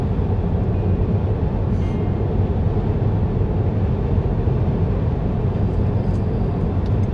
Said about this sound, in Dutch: Ik ga nu weer gas geven rechts van mij. Ik was aan het inhalen.